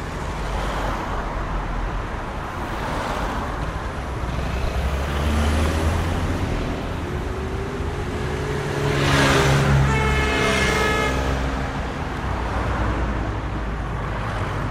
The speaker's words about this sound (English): I think I should record before we start, like a minute of traffic.